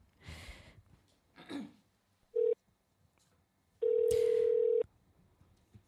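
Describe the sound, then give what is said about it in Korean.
Telephone ringing tones as a call is placed: a short steady beep, then a longer tone of about a second. Brief bursts of noise come before the tones, and no talk is heard. “전화 한번 걸어볼게요.”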